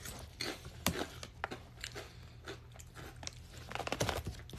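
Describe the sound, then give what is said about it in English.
Crunchy chewing and biting of pita chip flakes eaten with hummus. Many brittle crunches follow in an uneven rhythm, close and fairly loud, with no talking. “I'm grubbing on some delicious hummus from H-E-B, Central Market. And I'm putting the flakes of some pita chips that I have.”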